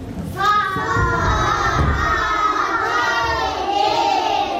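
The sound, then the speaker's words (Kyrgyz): Shouting from a first-grade class of schoolchildren at a village secondary school in Chong-Alai, Kyrgyzstan. Many young voices cry out together, loud and sustained for the whole stretch, with no other sounds standing out. “Саламатсыңарбы, балдар? Бул Чоңолайдагы Буркан суу орто мектебинин 1-нчи классынын окуучулары.”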